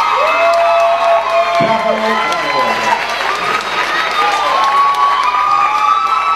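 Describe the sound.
A live audience cheers and applauds two performers, with loud shouts and whoops over clapping. The crowd stays at a steady, boisterous level throughout, with voices calling out above the noise.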